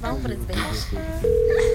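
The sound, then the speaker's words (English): A telephone call being placed. After a man's voice, a steady electronic tone begins and holds unbroken to the end. “This nigga better answer the phone.”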